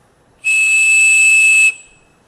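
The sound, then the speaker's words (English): A whistle blows a steady, pure 2600 hertz tone, the kind used to seize a telephone trunk line. It is a single loud, high, unwavering note lasting just over a second, heard alone and cut off cleanly. “That's the famous 2600 hertz. The whistle, of course, can make 2600 hertz much louder,”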